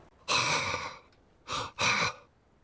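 A person breathes deeply: one long, airy exhale, then after a pause two shorter breaths close together. The breaths are soft and breathy, with quiet in between.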